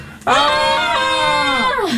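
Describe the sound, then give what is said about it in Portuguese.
A loud shout toward a lake, one long voiced cry held at a steady pitch for about a second and a half before it drops slightly and breaks off. “eu continuo a precisar de vez em quando gritar para o lago”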